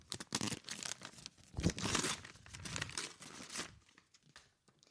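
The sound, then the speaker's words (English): A paper envelope is torn open in a quick series of soft crinkling, ripping bursts that continue for several seconds and then fall quiet. “I now will open the envelope and reveal to you all.”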